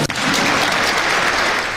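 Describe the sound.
A crowd applauds loudly with dense, steady clapping throughout, greeting a speech about discrimination in sport.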